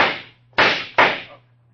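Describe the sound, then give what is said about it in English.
Gunshots fired from an alley: sharp, loud cracks, two of them in quick succession after the fading tail of an earlier shot. Each has a short decaying ring over a low steady hum, with no voices. “When you shot it, I dropped. Yeah, those shots came from that alley.”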